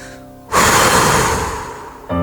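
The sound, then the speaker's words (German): A single forceful exhalation in a breathing exercise for releasing tension. It is a loud, breathy whoosh that holds steady and then slowly fades before cutting off. “Lass die Anspannung los durch einen heftigen Ausatmen.”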